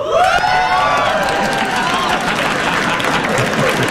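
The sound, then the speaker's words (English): Loud cheering and applause from a studio audience reacting to a joke about the Crocs company closing stores, with high whooping shouts at the start over sustained clapping. “Euphoria from the audience. That's the happiest I've seen a crowd.”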